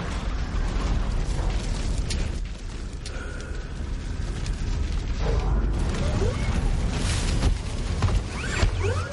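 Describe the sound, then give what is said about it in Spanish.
An assault ship explodes in the 2009 science-fiction film Avatar, a heavy rumbling roar threaded with crackling bursts and metallic creaks that swells and sustains throughout. “Rodeada por las llamas, la armadura del coronel coge un arma y salta a tierra. La nave de asalto explota.”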